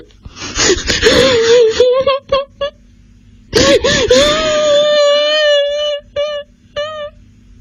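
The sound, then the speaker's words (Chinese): A person crying after falling onto the grass: two long bouts of loud, quavering wails that waver in pitch, each broken by short gasping sobs, with no other sound. “他倒在草地上哭了起来。”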